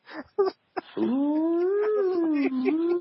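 A cat making a sustained, wavering, theremin-like yowl, a smooth tone that slides and bends in pitch for about two seconds after a few short, sharp sounds.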